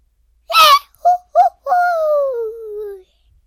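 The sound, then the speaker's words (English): A person vocally imitates Goofy's cartoon fall yell: a sharp high cry, two short yelps, then a long wailing note that slides steadily down in pitch and trails off into silence. “So first, there's the goofy fall. A lot of times when Goofy's in an episode, you hear the goofy fall.”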